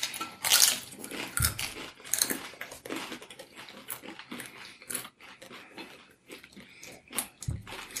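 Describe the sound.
Crunching bites into crispy tacos filled with vegetables and a little avocado, made up of many crisp crackling bursts and chewing noises, with no talk.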